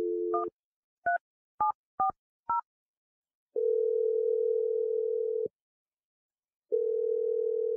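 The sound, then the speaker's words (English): Telephone number being dialed: a brief dial tone, then a few short keypad beeps in quick succession, followed by two long, steady ringing tones separated by a silent gap. “but I'm dialing the number right now.”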